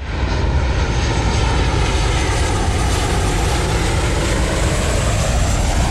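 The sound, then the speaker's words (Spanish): Airplane engine roaring in a steady, loud, unbroken drone that holds an even level throughout, with a dense low rumble and a broad hiss. No voices or other sounds stand out. “El sonido del avión”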